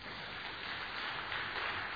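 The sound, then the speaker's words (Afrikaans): Audience applause thanks two people who had just played the lion and the lamb, wearing masks, during a church sermon. Steady, dense clapping runs evenly through the full two seconds at a fairly low level, with no voices. “Baie dankie julle twee. Kom ons gee vir hulle hande klap.”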